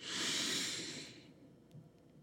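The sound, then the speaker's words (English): A slow, deep breath drawn in: one long, airy inhale that starts loud and gradually fades out, followed by quiet, with no talking. “let's take a slower deep breath together. Inhale”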